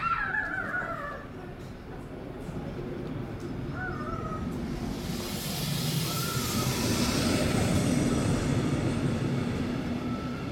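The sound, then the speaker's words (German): A regional train rolls in to a station platform, a broad, steady rumble that swells louder through the second half, with crow-like caws sounding early on. “Gleis 1 hat Einfahrt, die Regionalbahn Nord-Friesland zur Weiterfahrt als S-Bahn nach Leipzig. Planmäßige Abfahrtzeit 10.40 Uhr. Bitte Vorsicht bei der Einfahrt des Zuges.”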